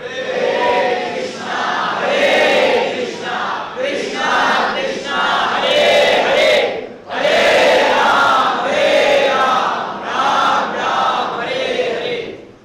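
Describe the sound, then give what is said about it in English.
Loud crowd chanting in unison at a devotional gathering, many voices singing holy names in a dense, continuous roar that dips briefly midway and then swells back. “This audience is out of control.”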